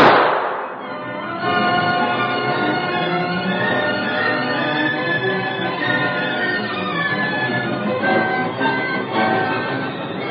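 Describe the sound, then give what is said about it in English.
A gun goes off with a sharp burst at the start, followed by a long, dense stretch of crackling, popping noise that stays loud and steady to the end. “But I got a couple of lead slugs he can have. Hey, put that gun away.”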